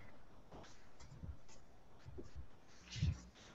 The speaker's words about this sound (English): let me write this out real quickly here for you. I'm not thinking ahead far enough. Here we go.